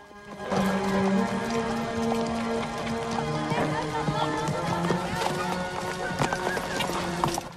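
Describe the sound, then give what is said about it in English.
Horses' hooves pound quickly and continuously as riders cross scrubland, a dense, loud run of clip-clop beats filling the whole clip. “During the heat of the day, they ride across scrubland.”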